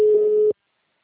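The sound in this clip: A single steady telephone tone sounds while a call is being placed, holding one even pitch for about half a second before cutting off to silence.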